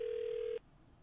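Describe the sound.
Telephone being dialed: a single steady, clear tone holds for about half a second and then cuts off abruptly, leaving faint low background noise.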